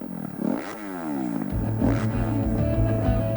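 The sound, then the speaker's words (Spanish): Motocross motorcycle engines of the Spanish Motocross Championship at Cerro Negro, Talavera de la Reina. Loud revving throttle blips sweep upward in pitch, then settle into a sustained, buzzing engine drone with further rises. “Vuelve la emoción de las dos ruedas a Talavera de la Reina. Campeonato de España de Motocross.”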